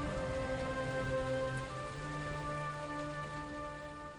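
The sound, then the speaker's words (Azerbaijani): Steady rainfall makes an even, continuous hiss throughout, with sustained low tones running beneath it. “Yağış.”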